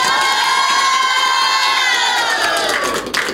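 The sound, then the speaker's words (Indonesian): Crowd cheering and shouting at a stage event after a folk-tale storytelling performance, loud and continuous, with high excited voices over a dense wash of noise that eases slightly near the end. “Sekali lagi dong, berikan aplaus yang meriah untuk Fakih.”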